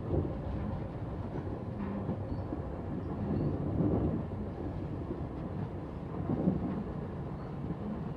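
Train riding on rails, heard from inside the carriage as a steady, low, rumbling vibration with soft swells in loudness, faint and continuous, with no voices.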